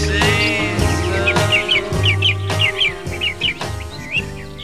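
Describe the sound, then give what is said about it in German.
Birds chirp in bright, high, repeated twittering bursts over a steady music recording with sustained tones and a low bass line. “Mit Vogelgezwitscher.”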